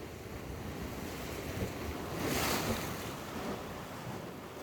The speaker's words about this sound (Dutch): En je hoort ook de zee bij Playa de Ingles, La Gomera.